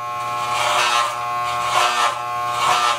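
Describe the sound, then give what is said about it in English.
Electric clippers shave a head in a bathroom, giving off a steady, harmonic-rich buzz that runs throughout with slight swells in loudness. “One time I filmed him shaving his head in the bathroom.”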